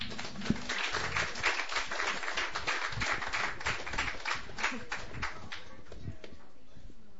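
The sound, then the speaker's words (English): Audience applause welcoming a performer at a Sunday night open mic. The clapping is dense and fairly faint, holds steady for several seconds, then thins out toward the end. “Please put your hands together for Mars.”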